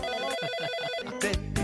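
An incoming call rings through on a telephone: a steady electronic ringing tone with bright, even pitches, then a few sharper bursts near the end, with no talk over it.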